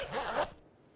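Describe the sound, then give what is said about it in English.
A finger-stick lancing device used for type 1 diabetes testing makes a single short, rasping zip-like click of about half a second, fairly quiet and alone, then fades into near silence. “This is the sound of managing your type 1 diabetes using finger sticks.”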